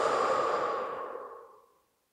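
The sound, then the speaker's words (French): A deep breath blown out during a stress-management sophrology relaxation session: a single long, breathy exhale that starts full and fades smoothly to silence, with no voices over it. “On y va, on inspire et on souffle.”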